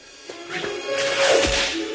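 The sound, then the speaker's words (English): A Harrier jet fighter passing the microphones at the Oshkosh Air Show, heard as a single whip-like swoosh that builds from near quiet into a rushing sweep, then eases off slightly at the end. “It's the sound of a Harrier jet fighter going past the microphones at the Oshkosh Air Show.”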